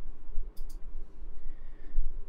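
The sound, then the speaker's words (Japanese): Two quick mouse clicks as a new post is added on a website, faint and sharp, close together over a low, quiet background. “で、投稿から新規追加をクリックします。”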